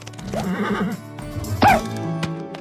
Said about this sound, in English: so we had to find kind of different vocals for each of the horses. But even Spirit Riding Free still sometimes needs a dose of the vintage cartoon sounds.